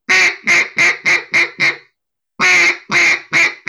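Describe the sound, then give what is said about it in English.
A duck call sounds a greeting call: a quick, even run of six loud nasal quacks, a short pause, then four more, the first of that second run drawn out longer than the rest. “you're kind of a greeting call where it's that wah, wah, wah, wah.”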